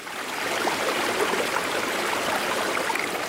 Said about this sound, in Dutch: Go and look at the river. Just go down there, because you know the water is healing.